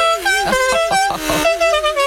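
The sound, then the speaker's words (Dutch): A loud battery-powered horn built onto the back of a bicycle blares a sustained, wavering, buzzy tone that holds steady for the full length, with faint voices briefly beneath it. “Zo heeft deze jongen speciaal voor de gelegenheid een flinke toeter achterop gebouwd.”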